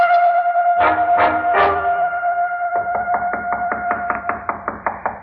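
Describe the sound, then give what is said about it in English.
Knocking on a door: three heavy blows, then a quick run of many lighter raps, all over a sustained tonal drone. “knocking must have helped bring me to, because it was the first thing I remembered hearing”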